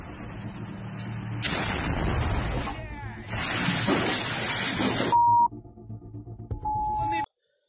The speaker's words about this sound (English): So first the tank has shot a round, and then it's going to step on a mine.